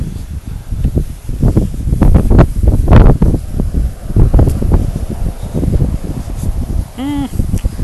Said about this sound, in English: This feels nice. The wind blowing right at my back, carrying me down. Blowing a little from the left,